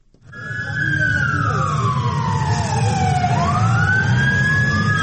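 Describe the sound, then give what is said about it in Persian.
An ambulance siren wails through an earthquake-stricken area of Turkey and Syria, carrying bodies or injured people. A loud, sustained tone sweeps slowly down, then climbs back up over a low engine rumble. “گاه صدای امبولانس بلند می شود که جسد یا زخمی را انتقال می دهد”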